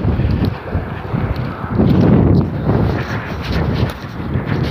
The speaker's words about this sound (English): Oh, now, of course, it's going to breeze right up.